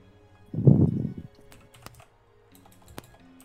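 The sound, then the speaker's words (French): Typing on a computer keyboard: a short burst of dense, muffled key clatter, then a few sparse, faint clicks in near-quiet. “Je vais taper food, ça fait longtemps que je l'ai fait.”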